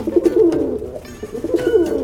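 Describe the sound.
Pigeons cooing in low, soft throaty phrases, with two rolling bursts of coos separated by a brief lull and no voices.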